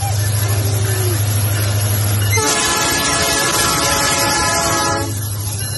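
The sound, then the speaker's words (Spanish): Train passing close to a woman taking a selfie beside the tracks: a heavy, loud rumble throughout, with the horn blaring a sustained tone for a couple of seconds in the middle. “Ahí se le viene el tren encima.”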